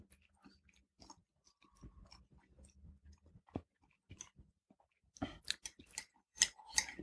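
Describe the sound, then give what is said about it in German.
People eat together without talking. Soft, intermittent chewing and mouth noises tick along quietly, then sharper, louder crunchy bites cluster near the end. “Ich bin echt gespannt, wie sich das anhört, wenn wir essen und keiner spricht.”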